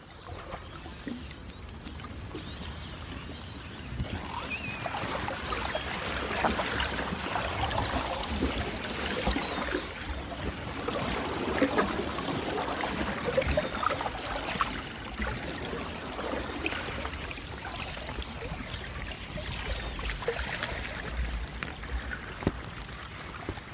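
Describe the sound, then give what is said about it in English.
Underwater calls of a passing pod of twenty or thirty orcas, picked up by hydrophones set in cracks in sea ice: high sweeping whistles and dense crackling clicks over a constant hiss, building after a quieter start. “And so I put my hydrophones into these cracks in the sea ice. Hydrophones are underwater microphones. And I made this recording as 20 or 30 orca pass by my hydrophones.”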